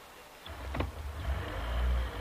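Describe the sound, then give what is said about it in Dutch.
A car drives off toward a customs checkpoint, its low engine rumble quiet at first and building steadily, with a brief whirring sound partway through and no talking. “Zo jongens, nu rijden we naar de douane.”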